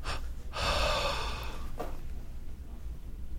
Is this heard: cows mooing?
no